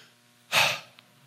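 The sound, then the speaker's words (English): A church audience taking a deep breath together, heard as one short, soft rush of air that rises and fades within a moment against a quiet background. “I want everybody, take a deep breath.”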